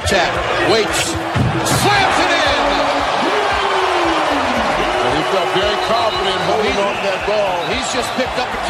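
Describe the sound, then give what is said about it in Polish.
A basketball slam dunk in a Wizards vs Hawks NBA game, with the ball and rim impact and a lively crowd reacting beneath continuous talk from a commentator. “Jedna z akcji naszego zawodnika, dokładnie wsad do kosza, to ozdoba potyczki z Hawks.”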